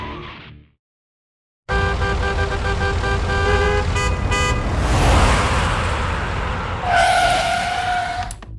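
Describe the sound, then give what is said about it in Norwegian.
Go-kart racing engines and tyre skidding at a go-kart Grand Prix held at a retail park: a brief opening sound, a pause, then a loud, continuous engine roar with buzzing harmonics and a sustained high squeal near the end. “Kjør go-kart for bare 195 kroner. Velkommen til Langrenningen Grand Prix.”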